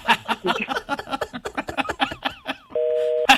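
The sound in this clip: A single steady electronic telephone ring tone sounds as a call comes in, one short even burst right after a stretch of lively conversational speech, then cut off as talking resumes.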